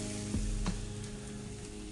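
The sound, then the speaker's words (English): Eggs frying in a pan, a steady crackling sizzle with a few sharper pops rising out of the hiss, with no voices. “Listen, sounds of eggs frying,”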